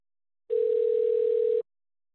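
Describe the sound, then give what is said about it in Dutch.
A telephone dial tone heard while placing a call: one steady, unbroken electronic tone lasting about a second, with silence before and after. “Even bellen.”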